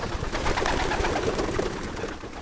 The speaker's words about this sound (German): Frank Gust steht in seinem Garten und hat seine Tauben zum 2. Mal in diesem Jahr fliegen lassen.